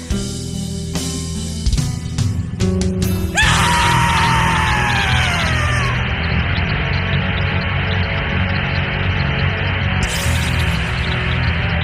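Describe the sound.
On a black metal record, a harrowing, agonized male scream erupts after a few seconds of dense, distorted music. It stretches into a long, raw howl with falling harmonics over the roaring band.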